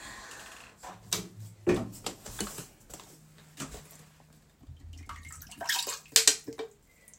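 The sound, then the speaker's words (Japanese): Urine being poured from a container into a toilet: a few irregular splashing, trickling bursts of liquid with light clattering knocks, fairly quiet, with a louder splash near the end. “このおしっこをちょっと、水道に捨てるのが嫌なので、ちょっとトイレの方に捨てたいと思います。”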